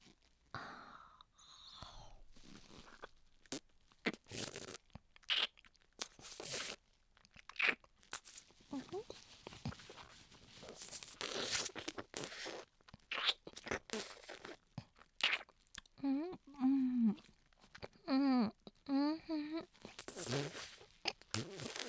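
Chewing a banana produces many soft, wet mouth noises with irregular crunchy clicks and smacks. Brief voiced sounds come near the end.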